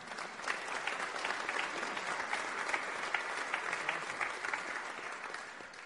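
Congregation applause at a church's 235th anniversary service, a steady, sustained wash of clapping offered in praise that holds an even loudness for several seconds with no voices standing out.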